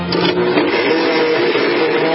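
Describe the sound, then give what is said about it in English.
Harsh mechanical whirring and grinding from a blender with an iPad shoved inside, a steady, loud, unbroken churn with no pauses or voices. “And even worse, shoved into a blender. I think I'll press the iBlend button.”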